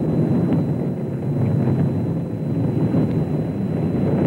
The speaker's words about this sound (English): Houston is now controlling. The thrust is going all engines. Boy, is that a smooth ride.